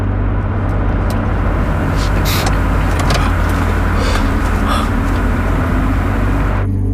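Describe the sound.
A car pulls to a stop with steady, loud engine and road rumble. The noise holds even, then cuts off abruptly near the end.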